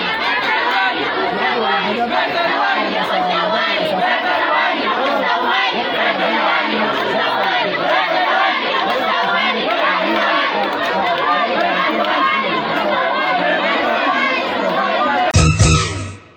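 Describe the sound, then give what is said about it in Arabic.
Students in a protest march shout slogans together, a dense, loud mass of voices that stays constant throughout. “وردد الطلاب المشاركون في الموكب هتافات”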